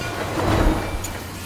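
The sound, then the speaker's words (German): A train rumbles past in the opposite direction, a broad steady roar that swells toward the middle and then eases off slightly. “Da fährt ein Zug 3, vorbei in die andere Richtung.”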